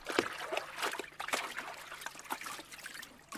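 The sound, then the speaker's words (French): Water splashing and trickling as laundry is rinsed by hand in a countryside stream by someone kneeling at the bank. Many short, quiet, irregular splashes and drips come in uneven bursts. “Marie-Thérèse, à genoux, rince sa lessive dans le ruisseau”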